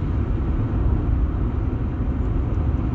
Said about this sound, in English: I'm just getting a feel for talking while I'm driving.